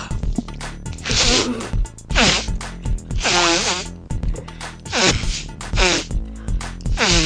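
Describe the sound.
A woman blows her nose loudly in a series of honking bursts, each a harsh, pitched, bugle-like blast with wavering tone, separated by short pauses.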